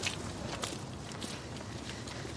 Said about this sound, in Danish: Vi går lige ned her langs